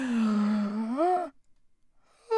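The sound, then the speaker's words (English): A person's long, loud, voiced yawn with a steady tone that rises in pitch near the end before cutting off abruptly, followed by a short pause and then a brief vocal sound. “Sorry. That was a yawn. That's how I yawn.”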